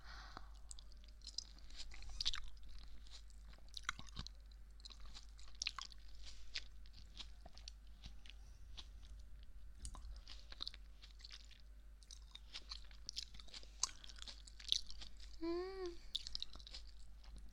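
Faint chewing of sweet, bite-sized snack pieces, with many soft wet clicks and smacks over a low steady hum.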